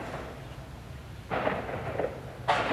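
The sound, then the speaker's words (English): Artillery practice at an active military base on Kinmen island gives two sharp, loud cracks with a booming tail, about a second apart, over a low steady hiss. “You can hear behind me the crack of artillery practice, which is just a reminder that even though a lot of troops already left Kinmen, some of it's still an active military base because of its proximity to China.”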